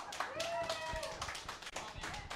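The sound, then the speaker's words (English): Faint audience clapping answers a show-of-hands question at an anime fan panel. Scattered, uneven claps sit under people talking. “By round of applause, who here is an Attack on Titan fan?”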